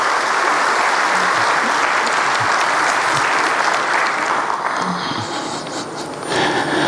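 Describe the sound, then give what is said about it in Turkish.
Sustained applause from an audience backing a football team's coaching staff, players and workers on the eve of a match against Barcelona. The dense, loud clapping stays steady throughout and dips slightly near the end. “Barcelona maçının arifesinde başta Okan hocamız olmak üzere teknik ekibe, futbolcu kardeşlerimize ve tüm çalışanlarımıza kuvvetli bir destek alkışı sizden rica ediyorum değerli.”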